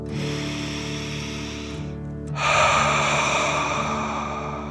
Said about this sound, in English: filling up your belly, and then out through your mouth, pretending you're breathing fire. Ready? Okay, deep dragon breath in and out.